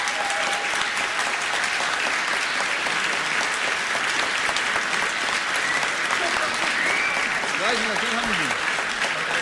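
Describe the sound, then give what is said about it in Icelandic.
An audience applauds a band with dense, sustained clapping that stays loud and even from start to end. “Gefum þeim gott klapp.”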